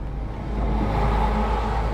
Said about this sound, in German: sitzt auf dem gefederten Fahrersitz in seinem LKW und dreht die Zündung des Motors. Das ganze Fahrzeug vibriert.